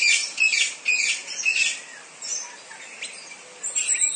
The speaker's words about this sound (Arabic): أصوات الطيور في الغابات المطيرة، أشحروري والعصافير